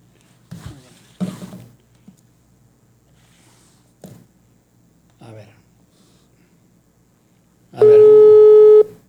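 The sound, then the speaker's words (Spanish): A telephone call being dialed: a few soft taps and handling noises, then a loud, steady electronic line tone lasting about a second at the end. “A ver, es que, a ver, aquí le estoy marcando al Capi.”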